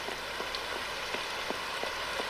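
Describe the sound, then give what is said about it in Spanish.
Heavy rain falls as a steady, dense hiss, with scattered soft drop taps flickering through it. It stays fairly quiet and unbroken from start to finish. “Llueve intensamente.”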